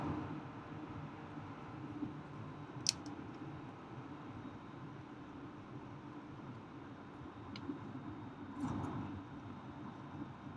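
Car driving on a North Dakota highway, a faint, steady low road rumble and hiss that stays constant throughout, with a few brief small clicks.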